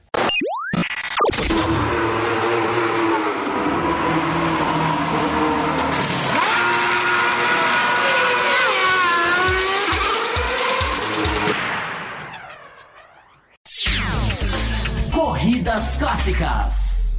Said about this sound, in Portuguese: Então, com isso, a gente vai passar a vinheta e a gente vai começar a falar sobre as corridas clássicas.